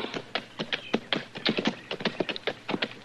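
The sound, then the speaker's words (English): Horse hooves clip-clop as a rider heads back toward town on a stormy day, a quick, steady run of many sharp knocking taps without pause and with no voices. “Well, now, I think you're better off riding right back into town with me.”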